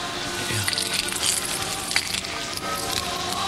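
A bunch of keys, including a car key and a house key, jingles in dense metallic clinks and rattles that run continuously without speech.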